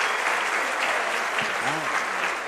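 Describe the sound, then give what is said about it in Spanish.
Audience applause at a university conference: dense, even clapping fills the whole stretch at moderate loudness, with a faint voice briefly audible beneath it. “Un aplauso, por favor.”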